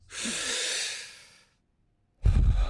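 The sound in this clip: A deep breath taken fully in and then let go, as one round of a repeated breathing exercise: a long, airy, hissing inhale of more than a second fades out, a brief silence follows, then a loud, rushing, breathy exhale begins, with no talking.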